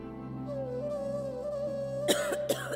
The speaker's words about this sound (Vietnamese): Bỗng một cơn ho bất chợt kéo đến